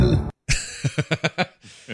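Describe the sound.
A burp from a movie opens with a low, rough rumble, then after a brief gap comes a run of several short, rhythmic bursts ending with a softer tail.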